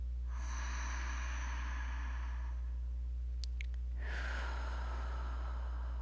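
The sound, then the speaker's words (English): A deep breath drawn into the belly during a guided breathing exercise: two long, airy breath sounds separated by a short pause, heard alone over a steady low hum. “Taking a deep breath into your belly to stoke these fires.”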